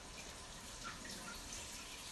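Tap water runs in a steady, faint, even rush to rinse off hardened caramel. The flow is unbroken, with no voices over it.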